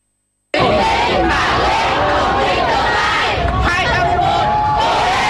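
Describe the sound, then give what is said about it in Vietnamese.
A crowd of youth volunteers and parents cheers exam candidates as they leave the exam room: loud, continuous shouting and whooping voices. It begins abruptly after a brief silence and stays energetic to the end. “Bước ra khỏi phòng thi, những tiếng vỗ tay cổ vũ của lực lượng thanh niên tình nguyện và cha mẹ phần nào động viên tinh thần thí sinh.”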